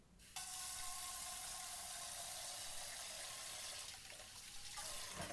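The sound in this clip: Running water pours from a sink tap while dishes are washed after dinner. It is a steady, bright rush that starts abruptly and keeps on with no voices over it.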